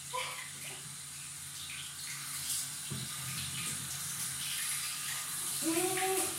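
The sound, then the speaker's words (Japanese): Water runs steadily from a bathroom tap, a continuous splashing hiss that fills the whole clip, with a brief tonal sound just before the end. “冷たい。声めっちゃ響きますね。早くお湯出ないかな、これ。”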